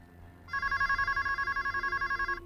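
A telephone rings in a computer room: one continuous, rapidly pulsing electronic trill lasting about two seconds. It is fairly faint over a low background hum.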